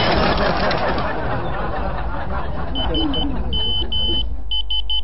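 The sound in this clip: Phone text message notification beeps, a few short, high electronic tones in quick groups, sounding over a loud, steady low rumble that fills the whole clip.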